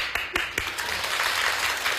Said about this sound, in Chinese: 谢谢，再来点掌声。